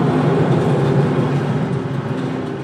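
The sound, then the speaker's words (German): Crane grab moving a load of slag at a waste incineration plant gives a steady, loud mechanical drone, a low rumble with humming tonal bands that holds evenly and eases slightly toward the end. “der fährt jetzt, macht jetzt noch voll den Greifer, dann fährt er ihn zur Mitte, gibt den auf und dann wandert die Schlacke rüber zu unserer Aufbereitung.”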